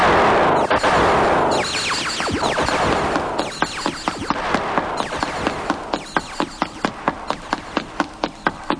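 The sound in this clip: Rapid gunfire: a burst of rushing noise gives way to a long run of sharp, loud cracks that fall into an even, quickening rhythm toward the end, with no voices.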